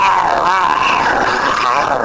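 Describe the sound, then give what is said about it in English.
A dog growls in one continuous, rough rumble that stays loud and steady for about two seconds, its pitch wavering throughout. “Initially, Trevor was a bit unsure about it and he gave a lot of growls.”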